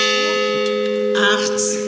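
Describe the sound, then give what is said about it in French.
A memorial bell tolls for victims at a remembrance ceremony, a steady ringing tone that hangs through the whole moment, with a brief rustle of other noise near the end. “la cloche a sonné 262 fois”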